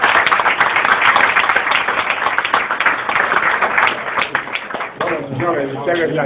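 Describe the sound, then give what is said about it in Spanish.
Applause from diners at a bullfighting club dinner. Dense, steady clapping continues for about five seconds, then voices talk as the clapping fades. “Un aplauso para los de la Peña Atlética.”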